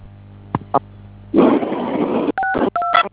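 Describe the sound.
Telephone keypad tones sound as a call is dialed and connected: a burst of noisy hiss and two short clicks come first, then a few clear two-tone beeps.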